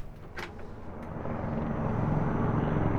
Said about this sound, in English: the loud blades of helicopters and the sirens of dozens of police cars bombard my small back porch.